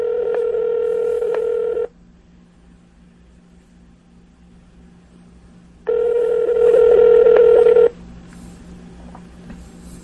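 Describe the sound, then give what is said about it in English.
Phone call ringing over a speakerphone: two long, buzzing ring tones, each lasting about two seconds, separated by a few seconds of low hiss, with a faint trailing tone near the end and no voices. “Calling Chris. Got to put it on speakerphone.”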